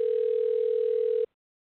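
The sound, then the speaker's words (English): A telephone line gives a steady single-pitch tone while a call is placed through a call-in switchboard. It holds evenly for just over a second, then cuts off abruptly into silence. “Well, now it's dialing.”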